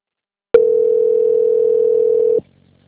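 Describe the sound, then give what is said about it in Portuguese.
A telephone transfer tone sounds as a call is passed to a bank's quality-control line: one long, steady, mid-pitched beep lasting about two seconds, loud and alone, with no voices. “peço que aguarde que eu vou transferir o contato para o controle de qualidade que dará continuidade à contratação”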